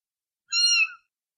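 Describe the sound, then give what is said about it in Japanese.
A small cat gives a single short, high-pitched meow lasting about half a second, heard alone against silence. “猫だ。小さな猫の鳴き声だ。”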